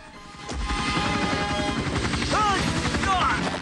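Gunfire from a security helicopter rattles over the steady, loud thumping of the rotor, with a sharp crash near the start and a couple of brief whining tones later on.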